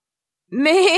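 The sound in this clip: A goat bleats once on a small hillside: a single wavering, nasal, harmonic cry that begins halfway through after silence and holds steady at moderate loudness to the end, with no talk.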